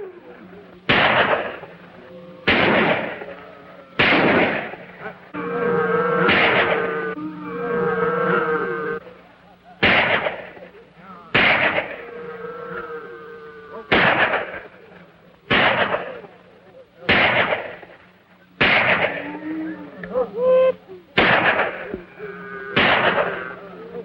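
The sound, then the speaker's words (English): Sharp gunshots ring out as two men hidden in a thicket fire at a cabin: many loud, cracking bangs at irregular intervals, with a few quieter sounds in between. “Concealed in a thicket, two of the men fire at the cabin.”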